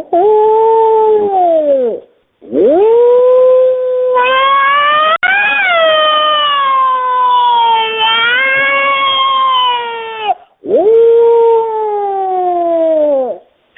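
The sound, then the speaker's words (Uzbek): A wolf howls in long, drawn-out tonal cries. A few sustained howls bend and waver in pitch, loud and alone, with brief gaps between them. “Bo'ri degan bir hayvon bo'ladi, o'sha nima, bu bo'rini ovozi mana shunday bo'ladi.”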